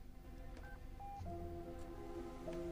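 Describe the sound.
Keypad dialing tones come from a mobile phone just flipped open: a few short, clean electronic beeps spaced unevenly, faint over a low steady background rumble.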